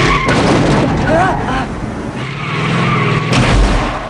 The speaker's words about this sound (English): Ryder rams him with the pickup that gave him a ride. Jim looks back over his shoulder as Ryder smashes into the back of him. Ryder sits casually at the truck's wheel and accelerates.